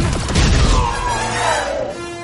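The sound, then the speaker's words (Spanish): A fighter ship crashes in Star Wars: The Force Awakens, a loud booming impact with a heavy rumble and debris, and a whining tone that sinks in pitch as the noise settles. “El caza se estrella.”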